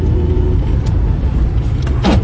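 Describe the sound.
Car driving, heard from inside the vehicle as a steady, loud low-frequency rumble and road noise that continues throughout, with no clear pauses or distinct events.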